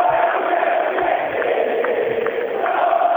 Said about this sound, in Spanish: Pelota en poder de Independiente, se levanta el público del Diablo.